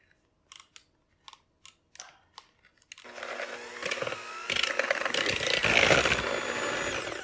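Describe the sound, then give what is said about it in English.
A butter mixture is beaten smooth in a bowl: a few sharp clicks and scrapes come first, then a loud, steady whirring churn begins partway through and continues to the end. “And you want this smooth. And we're going to scrape the sides. We want all the butter lumps out. And I'm going to beat it again.”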